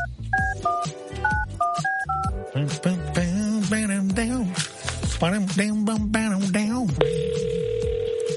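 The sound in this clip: Telephone keypad tones play as a number is dialed to call a contest winner, a quick run of short dual beeps. Sustained melodic voice or music follows, then a steady tone near the end.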